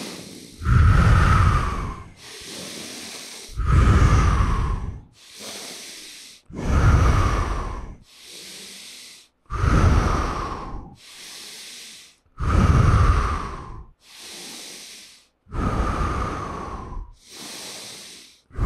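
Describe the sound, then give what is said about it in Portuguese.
Slow, deep breaths drawn in through the nose during a breathing exercise, airy hissing breaths alternating with softer ones in a steady, even rhythm over about six full cycles. “Então assim, ó. Inspira pelo nariz.”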